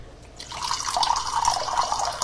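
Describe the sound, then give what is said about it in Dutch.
Water runs from a tap, starting after a brief quiet moment and then flowing in a steady, bright hiss with no one talking. “Do you know that your brain can actually tell the difference between how hot and cold water sound? All right, do you think this is hot or cold water?”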